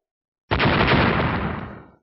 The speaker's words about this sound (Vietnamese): Tiếng nổ kịch liệt vang vọng tám hướng trời